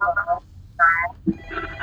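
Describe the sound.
Telephone ringing as a caller joins, with short warbling ring bursts separated by brief gaps.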